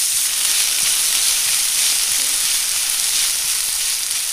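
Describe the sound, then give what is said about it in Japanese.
Chopped tomato sizzles with softened onions in a hot pan while it cooks down into a sauce. The frying hiss is steady and even, with faint crackles and no voices. “玉ねぎがしんなりしたら刻んだトマトを加えてソース状になるまで炒めます。”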